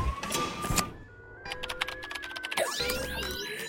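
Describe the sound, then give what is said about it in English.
Electronic clicks and short tonal beeps as a robotic arm with an electronic wand keys numbers into an egg-shaped pod's control panel, a quick irregular run of taps followed by sustained, wavering electronic tones. “a third arm holding an electronic wand keys some numbers into the egg's control panel.”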